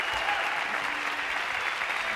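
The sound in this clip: Theater audience applauding the Bobs at a live taping in the Emery Theater in Cincinnati, Ohio: dense, continuous clapping that holds at an even level throughout with no pauses.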